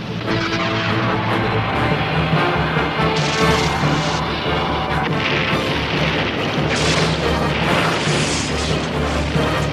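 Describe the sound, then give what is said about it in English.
A torpedo explosion against an oil tanker: a long, dense, loud roar of rumbling booms and crashing bursts that continues without pause for around ten seconds. “That oil tanker is our escape ticket! Fire torpedo!”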